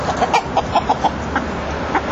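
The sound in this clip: Poultry clucking on a farm estate, a run of many short, clipped clucks in an uneven rhythm, fairly loud and steady over a constant background hum.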